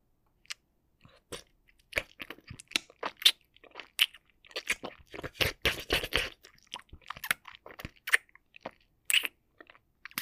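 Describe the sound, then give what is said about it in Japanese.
Wet ear-licking sounds up close: many short, sporadic smacks, clicks and slurps at an uneven rhythm, quiet overall with brief pauses between clusters and no talking. “まずは、お耳を舐めさせていただきます。”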